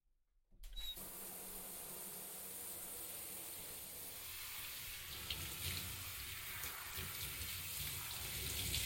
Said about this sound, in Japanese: 髪を軽く流していきますね。